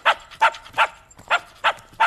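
Dog barking, six sharp, evenly spaced barks in a steady rhythm, each a short loud burst with brief quiet gaps between.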